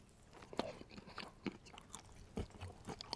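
Crunchy chewing and biting of chunky peanut butter made from century-old Enshu peanuts from Hamamatsu, Shizuoka, with whole peanut bits left in. A few crisp, irregular bites and chews stand out against a soft background.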